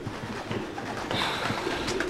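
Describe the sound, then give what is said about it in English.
Pigeons cooing behind a water tank: soft, low coos repeat in a few muffled pulses over a constant background hiss, which grows brighter partway through. “What's that? Just pigeons, madam ji. Behind the water tank.”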